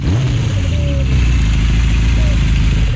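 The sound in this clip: A motorcycle engine runs with a loud, steady, low rumble and buzzing drone that holds at an even level throughout.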